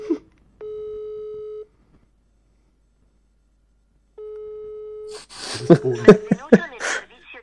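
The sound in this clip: An Italian telephone line gives two steady, mid-pitched beeps, each about a second long and separated by a long silence, followed by a person talking.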